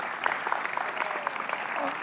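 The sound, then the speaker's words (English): An audience claps for two music teachers. The applause is brief, soft and steady, with scattered individual claps. “These are two of the greatest music teachers the world has ever seen. And I give them a hand, that's right.”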